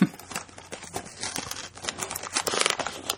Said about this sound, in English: This is us opening the box.